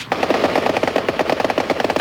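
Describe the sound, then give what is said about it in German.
Rapid automatic gunfire in a shootout, a fast continuous rattle of many sharp shots in close succession, loud and without voices. “Hör doch auf zu schießen. Nicht schießen.”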